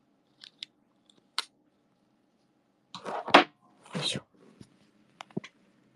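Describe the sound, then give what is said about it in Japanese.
Scissors snip to trim a few slightly overgrown spots: quiet, crisp cuts in irregular bursts, a few isolated snips, then a tighter cluster of clicks and one or two longer shearing cuts. “ちょっとだけ伸びている気がしたところだけチョキチョキしています。”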